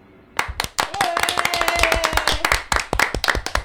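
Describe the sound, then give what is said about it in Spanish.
Applause for a child after a sung performance: a loud, continuous burst of many quick, sharp hand claps in an irregular rhythm, sustained for the whole stretch. “Bravo, bravo este aplauso para el niño”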